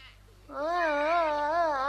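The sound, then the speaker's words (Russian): A baby cries in a sustained, wavering wail that starts abruptly after a moment of quiet and holds at a fairly high pitch with a tremulous, rising-and-falling quality. “Не плачь, не плачь, маленькая.”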